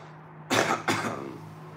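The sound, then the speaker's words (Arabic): A person coughs from smoke: two harsh, loud bursts in quick succession, the second slightly weaker, with no talk around them. “يعني حضرتك انت كحيت من الدخان”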